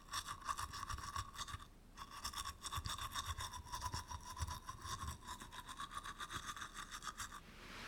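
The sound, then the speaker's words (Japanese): A toothbrush scrubs the hard-to-reach backs of the teeth. The bristle strokes are quick and rhythmic, stop briefly after the start, then carry on as a soft, steady scratching with no voices. “届きにくい歯の裏側もゴシゴシとしっかりと磨いてまいります。”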